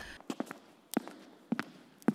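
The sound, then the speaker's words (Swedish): Footsteps on a staircase: faint, regular treads about every half second, each landing as a soft double knock, with four steps across the short stretch. “Så slutligen hördes det steg i trappen.”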